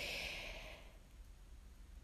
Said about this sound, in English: i take a deep breath because i'm like it's just so awesome